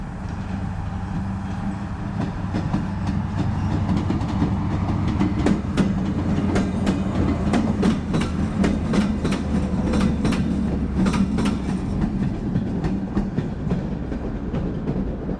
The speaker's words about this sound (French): La ligne de chemin de fer est indissociable de l'histoire de Louroux. Entre Gannat et La Pérouse, il n'y a qu'une seule et unique voie qui passe par de nombreux tunnels et 5 viaducs